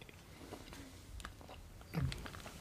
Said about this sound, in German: ich habe nur hm gesagt, weil ich den Mund voll mit Pandas habe.